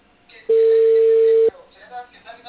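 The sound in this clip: The ringing tone of an outgoing telephone call sounds as a single loud, steady one-second tone, with faint background sounds before and after it.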